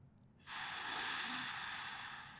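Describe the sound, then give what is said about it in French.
A deep breath is drawn in through the nose during a guided meditation, a faint, steady airy rush that rises in and holds for about two seconds after a quiet start. “prenez une profonde inspiration par le nez”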